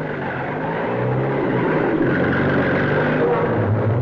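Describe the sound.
A car engine drones as the vehicle drives over a rough road in a radio drama, a steady low, harmonic hum. The level holds even throughout, with slight wavering in the engine tone.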